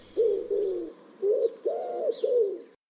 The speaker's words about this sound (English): that wonderful cooing is surely one of the most peaceful sounds you can hear wherever you are outdoors